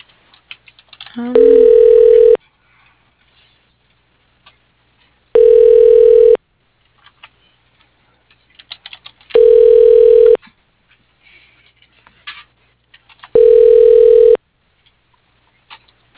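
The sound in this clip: Telephone ringback tone on a line while a call is transferred: four steady, evenly spaced rings of about one second each, separated by silences, with no talk.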